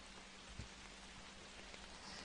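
Rain falls steadily in a dense, even patter of drops, an unbroken wash of hiss-like noise with no pauses or other sounds standing out.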